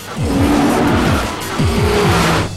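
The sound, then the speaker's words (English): A BMW car speeds through crowds inside Grand Central Station. Its loud engine revs in repeated falling sweeps while the tires squeal and skid. “The BMW is driving through the crowds of people inside the station.”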